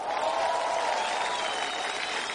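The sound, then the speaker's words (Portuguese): Church audience applauding and shouting in praise during a service, a continuous, even roar of clapping blended with crowd voices, sustained without breaks. “Quem pode dar o melhor brado de vitória e aplauso ao Senhor?”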